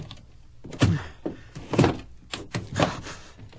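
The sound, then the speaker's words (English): A stuck door, rehung by carpenters the week before, thumps and rattles as someone pulls at its handle, giving a run of irregular, fairly faint knocks and jolts. “A big, strong man like you can't get it open? It It's stuck. It can't be stuck. The carpenters rehung it just last week.”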